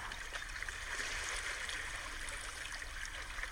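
Flowing water at the seaside, a soft, steady trickling and gurgling wash that stays continuous and quiet, with no distinct events.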